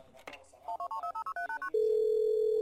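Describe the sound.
Telephone keypad tones as a call is placed: a quick run of short, evenly spaced beeps at shifting pitches, then a steady, unbroken line tone that holds to the end.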